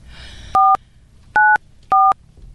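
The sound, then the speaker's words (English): Three loud telephone keypad dialing tones sound clearly over a faint background hum. Each is a short steady beep with an uneven pause between them. “No fat fingers with dialing.”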